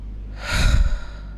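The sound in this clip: A single breathy exhale, used as a way of pronouncing the Hebrew name of God, swells quickly, peaks and trails off over about a second, airy and voiceless.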